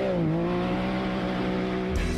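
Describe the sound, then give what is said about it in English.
Engine of a Can-Am off-road vehicle droning steadily and loudly, its pitch dipping slightly at the start and then holding level, with no talk over it. “Hit the trails in the ultimate off-road vehicle. Can-Am is built for ripping through trails, crawling through mud, cruising over dunes”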